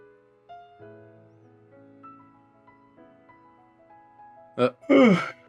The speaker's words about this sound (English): No, I had a big fat yawn. Biggie yawn.